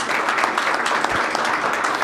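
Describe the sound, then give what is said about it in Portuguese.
Applause from an audience at a public event in Brazil: dense, steady clapping that fills the whole stretch at an even, fairly loud level, with no voices over it. “Então, a salva de palmas que eu peço é para Paulo Paim.”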